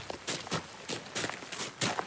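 Running footsteps of a soldier in helmet and vest carrying a rifle on a shooting range: a quick, steady series of crunching strides, fairly soft and alone.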